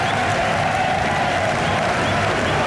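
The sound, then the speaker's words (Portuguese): A deafening crowd roars in the stands of the Caldeirão stadium in Funchal during a Marítimo versus Porto football match. The dense, loud wall of cheering and clapping holds steady throughout without letting up. “Barulho ensurdecedor nas bancadas do Caldeirão. Panelão a ferver nesta altura.”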